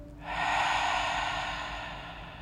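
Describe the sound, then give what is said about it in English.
A deep, slow meditation breath, one long airy rush that swells quickly and then gradually fades, soft and heard alone. “Take a deep inhale from the nose, expand from the belly. Open your mouth, exhale from the mouth.”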